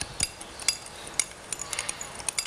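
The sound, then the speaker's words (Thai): A spoon stirring sugar into fish sauce and lime juice gives light, irregular clinks and taps against the bowl over a soft, steady hiss. “น้ำปลาแล้วก็น้ำตาลทรายนะคะตัดลดนิดนึงนะคะแล้วก็น้ำมะนาวนะคะคนให้น้ำตาลทรายละลายก่อนนะคะ”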